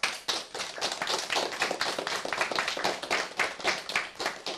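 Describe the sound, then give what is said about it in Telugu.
An audience claps for children who have just sung, with many dense, overlapping claps running steadily through the whole stretch at an even, fairly loud level. No voices are heard. “చిన్నారులు చాలా చక్కగా పాడారు కదా, చిన్నారులకు చప్పట్లు కొడదామా?”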